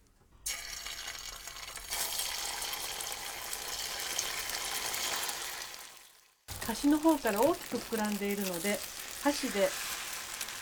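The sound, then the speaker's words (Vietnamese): A loud, steady sizzle as an egg mixture fries in a preheated, oiled pan, then a break and a person speaking. “Chú ý phải làm nóng chảo trước khi đổ phần hỗn hợp trứng vào. Điều này giúp cho phần trứng tráng sau khi hoàn thành được mịn.”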